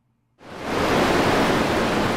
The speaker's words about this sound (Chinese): 于是，小黑全身沾满了各种谷子，在大海中奋力地向前游去